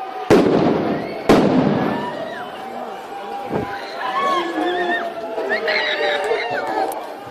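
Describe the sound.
Firecrackers explode at a violent demonstration in a town square. Two loud, sharp bangs come in quick succession, followed later by a fainter pop, while a crowd's shouting and chatter continue throughout.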